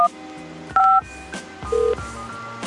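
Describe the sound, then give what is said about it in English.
Touch-tone telephone keypad beeps as a room number is dialed into a motel's automated phone line: a few short, steady dual tones, some louder than others, over a low background hum. “If you know your room number, dial it now.”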